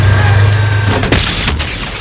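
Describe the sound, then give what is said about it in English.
A Tiger tank's heavy gun fires, giving a short, booming blast about midway through, followed by a second burst over a low rumbling background. “As the Tiger's heavy gun swivels toward them, Mellish and Henderson scramble.”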